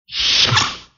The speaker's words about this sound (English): It's the sliding doors. So that's the sound of the sliding doors on the Starship Enterprise from the